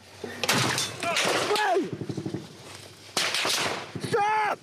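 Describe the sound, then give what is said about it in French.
Gunfire from Russian troops aimed at a journalist team in Ukraine, heard as a quick burst of sharp shots between stretches of urgent voices. “Ils viennent d'essuyer les premiers tirs des troupes russes.”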